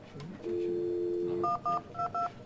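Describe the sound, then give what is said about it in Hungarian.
Telephone dialing an extension on a phone console: a steady low dial tone holds for about a second, then four short, clear keypad beeps follow in an uneven rhythm. “Hát menjünk oda a konzolra, és hívjuk meg ezt a melléket.”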